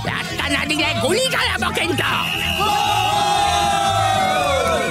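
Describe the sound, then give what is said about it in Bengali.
A packed football ground erupts as a third goal goes in, with loud, sustained cheering, whoops and shouted yells from the crowd layered into a continuous roar. “ঠিক সেই মুহূর্তেই লাতনপুর হেতমগড়কে 3 নম্বর গোলটা দেওয়ায় মাঠে এমন চেঁচামেচি উঠল যে মাধববাবুর গলার স্বর কারোর কানে পৌঁছল না।”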